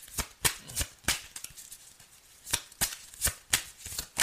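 Tarot cards being shuffled to draw a clarification card: a series of crisp papery riffles and snaps in irregular bursts, clustered at the start and again in the second half, with quieter rustling between and no voices.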